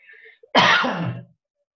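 Throat clearing and a cough from a tickle in the throat: a faint murmur, then one loud, harsh burst lasting under a second, followed by silence.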